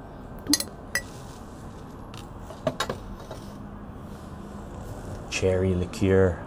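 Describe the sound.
A few sharp, bright clinks of a fresh spoon against glass as a cherry is served in cherry liqueur on a patio, separate taps standing out over a low, steady background hum.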